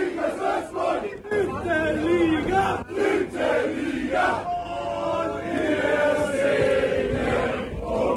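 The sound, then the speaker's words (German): Football fans celebrate after a promotion playoff match. The crowd cheers and sings in a loud, shifting din of many voices that carries on throughout. “So klang das gestern nach dem Relegationsaufstiegsspiel.”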